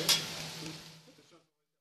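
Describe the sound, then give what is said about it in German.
Cauliflower, potatoes and onions fry in Tamil-spiced chickpea batter, a brief bright sizzle strongest at the start that thins out and fades to silence within about a second and a half. “Auf dem Menü steht Blumenkohl, Kartoffeln und Zwiebeln. Frittiert in Kichererbsenteig, tamilisch gewürzt.”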